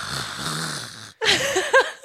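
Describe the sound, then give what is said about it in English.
A very large man vocally imitating his own loud yawn: a rough, snore-like drawn-out groan, a short break, then louder voiced bursts with wavering pitch. “And when you yawn, you sound like this.”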